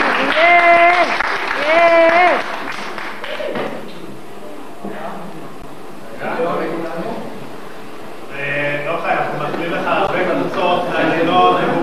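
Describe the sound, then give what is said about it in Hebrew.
An audience applauds after a speaker asks for a round of clapping. A voice talks at the start, then clapping builds into a loose patter, and a fuller, louder burst of hands continues to the end. “מותר למחוא כפיים למועדים? למחוא, למחוא, למחוא.”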